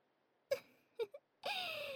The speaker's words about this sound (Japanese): 顔隠して泣きながら何言ってんの？おかしすぎ。